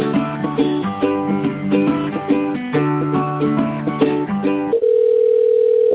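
Telephone line tones during a call transfer: a tinny, narrow-sounding electronic melody plays over the line, then gives way to a steady, continuous single-pitched tone that holds to the end.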